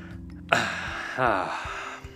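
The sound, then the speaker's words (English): A deep breath drawn in sharply by a person, followed by a longer, breathy, partly voiced release that fades out, heard alone without talk. “Yesterday I took a deep breath, and so I'll go ahead and do it again here.”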